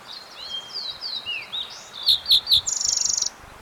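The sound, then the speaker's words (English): A fox sparrow sings a bright, high song: sliding whistled notes, then three loud, clear notes, ending in a fast, buzzy trill. “fox sparrow singing in the background”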